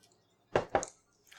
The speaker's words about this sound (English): Was that a hiccup?